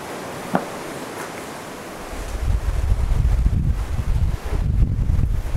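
Gusty wind buffets a microphone with a low, rumbling roar that rises after a quieter opening and continues in uneven, blustery surges.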